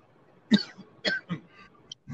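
Throat clearing by a man, a few short, rough, raspy bursts separated by brief pauses, fairly faint and with no talking.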